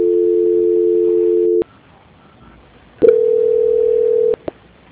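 Telephone line tone while a call is being transferred: two long, steady tones separated by a gap, the second slightly higher, then a single click.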